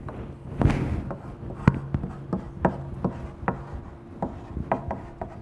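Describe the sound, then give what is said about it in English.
Handwriting during a church message as a speaker writes down a list: many short, scratchy strokes in an irregular rhythm, fairly clear, with no voices. “we have mainly three excuses, and I want to write them down.”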